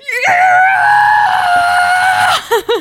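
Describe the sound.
A voice imitates screaming with one long, loud, high wail held for about two seconds, then a couple of short breathy bursts at the end.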